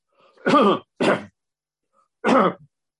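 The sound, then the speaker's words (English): A person clears phlegm from the throat in three rough, guttural bursts. The first two come close together, and the third follows after a pause of about a second. Each one is loud against silence. “Just clearing some phlegm.”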